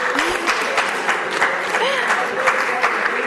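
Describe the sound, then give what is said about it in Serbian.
Applause for a team, a dense continuous patter of clapping at steady loudness, with voices mixed in beneath it. “evo, aplauz za ekipu”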